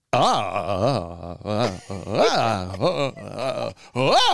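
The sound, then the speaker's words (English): Siri's synthetic female text-to-speech voice reads out a long string of repeated letter A's, producing many short, uneven gliding tones that swoop up and down in pitch like weird moaning, separated by tiny gaps. “Weird, uneven moaning from Siri.”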